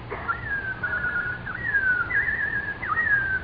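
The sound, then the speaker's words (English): Robin whistling in spring: one continuous, warbling high whistle that wavers up and down in pitch with a few quick flourishes, steady and clear over a faint low background hum. “What do I hear? Can it be that... Oh, it is. Oh, my little robin friend.”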